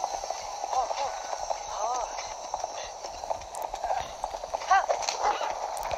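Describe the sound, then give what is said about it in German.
Horse hooves clip-clop while riding along a gorge, a steady, quick patter of hoofbeats running throughout at moderate volume, with voices heard over it. “So, jetzt reiten wir in dieser Schlucht entlang.”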